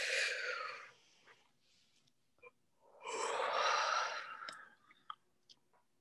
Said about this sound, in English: And now I take another deep breath in.